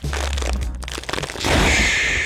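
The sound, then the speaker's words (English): Cracking open a box of Shapes crackers gives crisp crinkling and crunching, with a denser, louder burst of crackling through the second half. “You crack it open. Okay. I'm not normally a shapes guy. I'm going to do this on the mic. I don't know how this sounds.”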